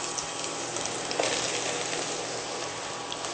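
Mushrooms dropped into hot garlic oil sizzle in a pot, a steady, fairly faint crackling hiss that continues evenly throughout, with no talk.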